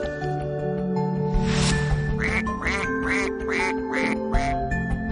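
A duck quacks five times in quick, even succession, with harsh, nasal calls over a steady humming background.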